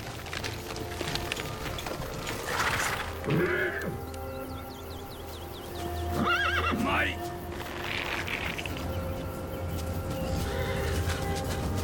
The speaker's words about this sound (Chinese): 结果，一个骑着马的神秘男人杀到，手里拿着他熟悉的圣剑